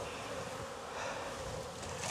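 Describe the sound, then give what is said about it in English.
Honey bees buzz around a hive with honey stores, a faint, steady, droning hum with no voices. “bees busy with some honey stores.”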